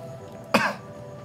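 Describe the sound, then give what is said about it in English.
A single short, harsh cough, like someone coughing up swallowed salt water. It bursts out once over a low, steady hum. “He's coughing up salt water again. Just like his dreams.”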